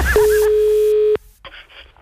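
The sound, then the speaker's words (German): A telephone tone sounds as a single steady, pure pitch for about a second, then cuts off abruptly, leaving only faint scattered noise afterward. “Das Telefon.”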